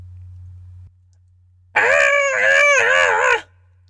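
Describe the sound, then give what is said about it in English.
People screaming along together in a single cathartic group scream: a loud, strained, sustained cry lasting under two seconds with a wavering pitch, preceded by a low steady hum and a short pause. “Find a place to scream along with us, and we'll do one in a three count.”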